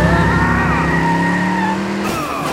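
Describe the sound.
A motorcycle skids and hits a curb before rolling onto its side. A loud, steady engine whine with high squealing tire tones runs throughout, and a harsher burst of noise comes near the end.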